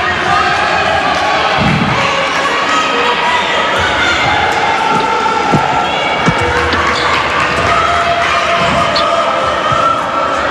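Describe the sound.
Basketball game against the Nea Ionia team: a ball bounces on the court several times over a constant roar of crowd noise, with scattered thuds and shoe sounds.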